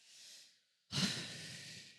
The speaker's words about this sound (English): In fact, this morning, let's all just take a deep breath.